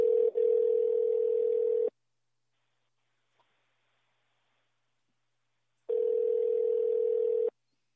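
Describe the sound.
Telephone tone on an outgoing call: a steady, buzzing tone sounds twice, each burst lasting about two seconds, with a long silent gap between them. There are no voices.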